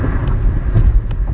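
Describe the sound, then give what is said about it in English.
Inside a car while driving, a steady low road rumble and engine drone with a faint higher hiss and no talk. “I am literally driving”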